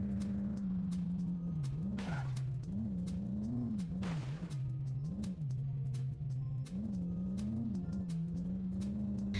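Engine drone of a car driving cross-country in a video game, a steady tone whose pitch wobbles up and down with shifting revs, dotted with short clicks and two brief noisy bursts.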